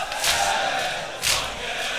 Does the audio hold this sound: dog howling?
no